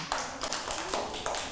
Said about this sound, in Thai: ปรบมือให้น้องเอ๋ยหน่อยค่ะ